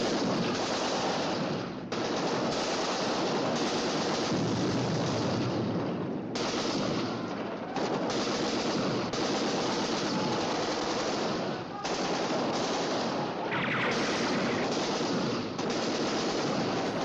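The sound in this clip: Heavy gunfire as soldiers leap from army jeeps and shoot toward an air force base, a dense, continuous loud rattle of shots with only brief gaps throughout.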